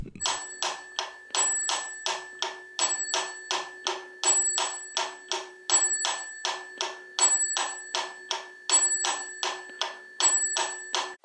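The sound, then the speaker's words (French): A mechanical metronome from 1832 ticks in an even, brisk beat, with a bright bell chiming on the first of every four ticks to mark each bar. The sound repeats many times with no other sound. “un métronome euh, de 1832. Enfin, on peut imaginer qu'il est de cette année-là parce qu'il a une particularité, c'est qu'en plus de faire clac-clac, il fait parfois ding-ding.”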